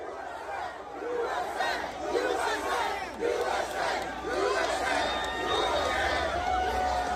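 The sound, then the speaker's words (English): A crowd of supporters packs a stadium concourse around Donald Trump and chants loudly and rhythmically. Many voices repeat the chant over a dense roar of crowd noise throughout. “So here's Trump walking through the mobs of people at the concourse, everybody wanting a handshake, an autograph, a picture. Just going nuts.”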